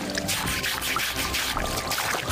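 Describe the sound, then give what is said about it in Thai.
Tap water running continuously into a basin where freshly caught fish are scrubbed and rinsed, a steady rushing splash with faint irregular knocks and sloshing underneath. “ก็จะโยนไปอีกกระมังนึงซึ่งก็จะเปิดน้ำไหลไว้ตลอดเวลานะครับ”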